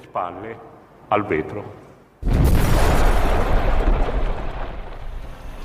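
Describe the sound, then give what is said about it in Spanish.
A bomb explodes in a bank branch on a city square in Milan. After brief talk, a sudden, heavy blast cuts in and rolls on as a loud, sustained rumbling roar until the end. “A las 4.37 de la tarde del 12 de diciembre de 1969, explotaba una bomba en la sucursal del Banco Nacional de la Agricultura en la Plaza Fontana de Milán.”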